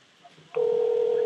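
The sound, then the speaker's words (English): Telephone dialing tone as a call is placed: after a short near-silent lead-in, a single loud, steady electronic tone starts abruptly and holds unbroken to the end, with no voices over it. “We're calling you, Nick.”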